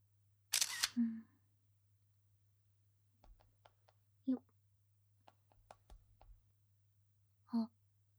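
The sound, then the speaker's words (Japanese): A camera takes photos of a drink float and a lit-up pool, making a few sharp shutter clicks spaced several seconds apart. The clicks are fairly quiet, with faint scattered small noises between them. “フロートとプール、写真撮ってアップしちゃおう。”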